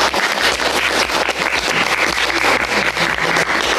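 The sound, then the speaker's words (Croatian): A group gives itself one big round of applause at the close of a Christmas charity gathering: loud, dense clapping with slight swells, sustained without pause. “Ja mislim da ste bili divni i da možemo sami sebi zapljeskati. Jel može? Ajde da čujem jedan veliki pljesak.”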